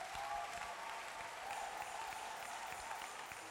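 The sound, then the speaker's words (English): An audience claps in praise during a church service, a dense, steady wash of applause that holds at an even level throughout without pause. “Give the Lord a wonderful clap of praise.”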